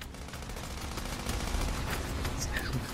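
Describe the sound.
Gunfire from a video game trailer's gameplay, shooting at an alligator while driving a small vehicle in circles. Dense, rapid shots blur into a continuous crackling barrage at a steady, fairly loud level throughout.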